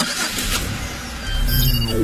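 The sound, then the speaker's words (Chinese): A car's engine and road noise are heard while it drives: a steady, broad rumble and hiss that swells a little louder toward the end, with no talking. “亲爱的，我正开着车呢。”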